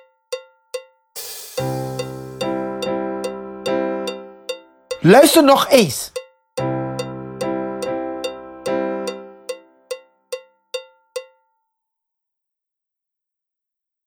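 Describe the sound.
A strummed comping chord pattern is played as a music lesson demonstration. Short rhythmic chord strokes ride over a steady metronome-like click, break for a brief spoken phrase midway, then repeat.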